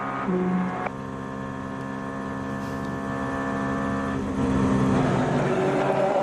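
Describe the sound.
A race car's engine drones loudly from onboard during the Le Mans 24 Hours endurance race. The sustained tone shifts pitch a couple of times.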